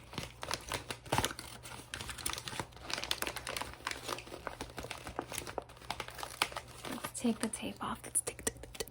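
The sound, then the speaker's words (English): Paper gift wrap crinkled and crackled as a present is unwrapped and sticky tape is peeled off. A dense, steady stream of crisp rustling and crackling runs throughout, with a soft voice briefly beneath it. “Let's take the tape off of the other side.”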